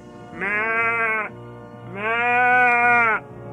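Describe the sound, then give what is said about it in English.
A man's voice imitates a bawling calf to draw a heifer across a pasture, giving two drawn-out, bleating calls, the second longer and slightly louder than the first. “Another thing he did, which I thought was pretty slick, was he made the sound of a bawling calf.”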